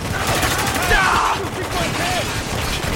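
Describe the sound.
Machine gun fire in a video game rattles in rapid, continuous bursts, loud and crowded, with voices talking over the shooting.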